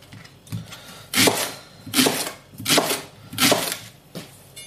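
A knife cuts rings with several evenly spaced strokes in a steady rhythm, each a dry rasping crunch of moderate loudness, with no voices.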